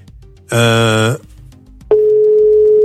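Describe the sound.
Telephone ringing tone heard while placing a call: a single steady mid-pitched tone begins partway through and holds unbroken to the end, preceded by a brief voiced sound.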